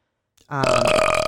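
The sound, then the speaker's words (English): A single disgusting belch: one long, loud, croaking burp that starts abruptly after a brief faint onset and holds steady for almost a second, with no other sound. “and the most disgusting belch in the world.”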